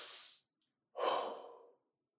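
A deep breath in and out: a soft, airy inhale, then after a brief pause a longer sighing exhale, both faint.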